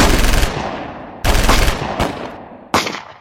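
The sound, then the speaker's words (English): Bursts of rapid, loud gunfire follow a command to reload and fire. Each burst of harsh, crackling shots breaks off and fades before the next, and no voices are heard. “Reload! Fire!”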